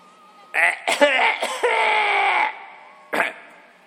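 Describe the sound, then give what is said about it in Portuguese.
Someone clears their throat to warm up the voice. A loud, rough burst leads into a drawn-out, voiced, raspy rumble, then stops, and a short, sharp hack follows at the end. “Temperar a garganta é bom, viu?”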